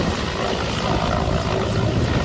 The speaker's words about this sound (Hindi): अनंतपुर जिले में बाढ़ में फंसे एक जेसीबी पर चढ़े 10 लोगों को बचाने के लिए हेलीकॉप्टर मंगवाना पड़ा।